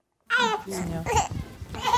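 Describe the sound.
A baby babbles in short, high vocal bursts that verge on whimpering, in a former ox stable converted into a care farm.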